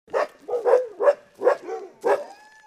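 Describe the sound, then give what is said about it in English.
Several dogs bark in short, yelping bursts in the still-flooded dog yard of an Iditarod sled-dog musher in flood-damaged Galena, a rapid series of mid-pitched, slightly whining barks and yips that fade into a softer whimper at the end. “Iditarod veteran John Corda's dogs bark a sad hello as we walk into his still-flooded yard”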